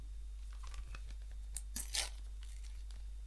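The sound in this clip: A paper envelope is torn open at an award show with a few quick, crisp ripping bursts, the strongest around the middle. The tearing is fairly quiet over a low steady hum, with no voices.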